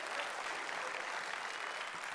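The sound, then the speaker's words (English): A church audience applauds with steady, dense clapping that holds evenly throughout at a fairly soft level. “would you please give a round of applause”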